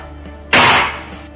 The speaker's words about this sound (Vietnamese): Bao chừng trong tay không có kinh đường mộc, mượn tạm cái chặn giấy trên bàn mà đập.